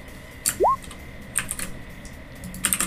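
Typing on a computer keyboard: a few short, faint bursts of key clicks separated by pauses, with a brief rising chirp near the start.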